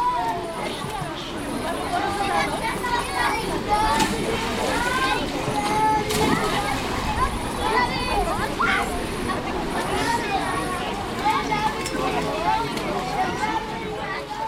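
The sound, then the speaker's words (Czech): At an outdoor public swimming pool in Dub, a busy mix of children's chatter and shouts runs over steady water splashing throughout. “Na koupališti u Dubu je fajn. Je tu pořádný bazén na plavání, mělčí bazén na cákání, o nejmenší bazén pro mrňata na cachtání.”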